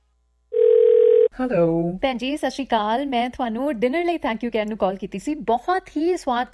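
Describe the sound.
A telephone dial tone plays before a call is placed: a steady, clear single tone lasting under a second, then it cuts off and a voice begins talking.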